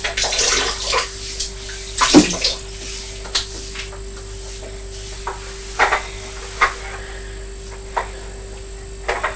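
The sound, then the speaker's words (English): A toy digger goes into water with one clear splash, followed by a few small splashes and dribbles against a faint steady hum. “Are you putting the digger in the water, are you?”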